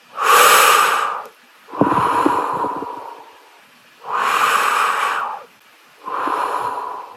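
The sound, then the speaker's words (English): Deep breaths of clear air drawn in and let out, four long airy breath sounds with short pauses between them, loud and close with no talk. “You take deep breaths of clear air.”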